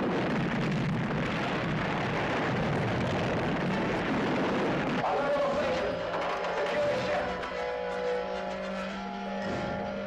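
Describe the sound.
Exploding ships give a dense, loud, rumbling roar that holds steady for about five seconds, then drops to a thinner, quieter sound with steady tones.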